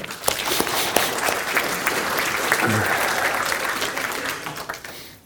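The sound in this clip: An audience applauds to welcome a speaker to the stage at a talk, a dense, steady clatter of many hands that holds for several seconds and thins out near the end.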